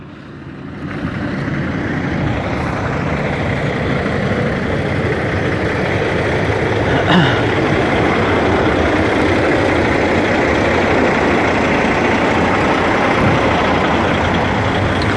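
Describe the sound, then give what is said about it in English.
A big truck pulling a trailer drives right alongside, a loud, steady rumble of engine and road noise that holds almost unchanged for the whole stretch, with no talking. “I'm walking by and there's literally a big ass trailer like driving right next to me.”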